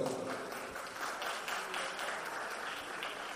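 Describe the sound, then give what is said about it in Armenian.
Audience applause at a live stage event, a dense, steady wash of many hands clapping that continues evenly without pause. “Ես ուզում եմ ծափերը չդադարեն։ Ես ուզում եմ ծափարեք ամենակարևոր մարդկանց այստեղ իմ գոհեկաներից։”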